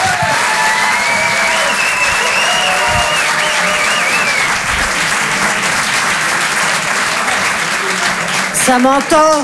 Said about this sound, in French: Je vous demande un maximum de bruit, s'il vous plaît, également pour Antonia de Rendinger.